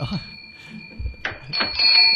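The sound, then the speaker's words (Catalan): A bell hanging on a door rings with bright, sustained metallic tones that linger and swell toward the end, while people talk over it. “Per cert, per què li heu ficat campana a la porta? Fa maco. Pot Aquesta campana pot tornar a sortir a la porta?”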